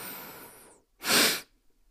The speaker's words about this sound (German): Du atmest durch die Nase ein, am Ende legst du noch einen Atemzug dazu und ganz entspannt durch den Mund aus. Lass mal ausprobieren. Also ein durch die Nase